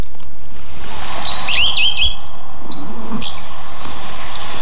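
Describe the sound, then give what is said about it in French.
Blue tit song: a few short, thin, high-pitched chirping phrases over a faint steady background. “Un mésange bleu. Une très commune aussi, mais très discrète.”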